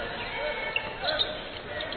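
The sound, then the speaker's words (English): A basketball is dribbled on the court during a game, with a few dull thuds under continuous play-by-play commentary and faint squeaks on the court. “Cast to inbound, looking at full court pressure. And now into the front court. Dribbles right side.”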